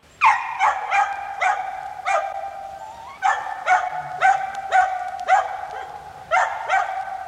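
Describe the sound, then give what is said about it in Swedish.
A man's voice imitating a dachshund barking: many sharp, yappy barks in quick bursts with brief pauses between them, clear and fairly loud, with no other sound. “Du kanske blir intresserad här om du hör mig imitera hunden till exempel.”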